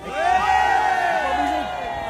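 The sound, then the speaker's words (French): Crowd shouting loudly at a rally where workers and healthcare staff call for protecting the public hospital, a sustained roar of raised voices and cheers that swells and holds throughout. “eh bien, crions fort pour protéger l'hôpital public.”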